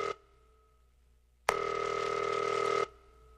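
A telephone call is dialed and rings: a brief tone, a pause, then one long, steady electronic ring lasting over a second, clear and alone over a faint hum.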